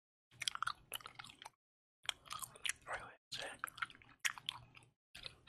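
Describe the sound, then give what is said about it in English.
Wet, close chewing of gum for an ASMR recording, with many smacking, squishy mouth clicks arriving in several bursts separated by short silences. “I needed some gum because I haven't had gum for an ASMR video in a long time.”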